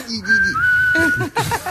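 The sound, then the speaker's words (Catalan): Whistling meant to sound angry: a person holds one long, steady, fairly high note, then breaks into a few short, clipped whistled notes, loud and clear with no other sounds. “Has de xiular enfadat, no? Com es xiula enfadat?”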